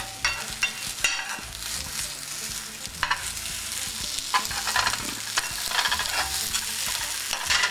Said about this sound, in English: And just a couple of minutes, just so that the eggplant and the egg uh, wash will set.